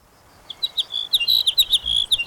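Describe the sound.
Sparrow song: a rapid run of many high, thin chirps and brief trills, fairly loud over a soft background hiss.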